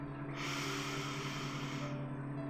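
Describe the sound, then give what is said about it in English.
A slow, deep breath in during a guided relaxation exercise, a smooth airy rush lasting about a second and a half, over a soft steady low hum. “Just follow me. Just breathe in”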